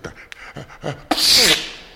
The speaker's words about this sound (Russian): Что я? Чихнул.